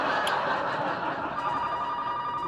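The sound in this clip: A telephone rings through a dense, noisy background, its steady tonal ring continuing to the end without clear pauses.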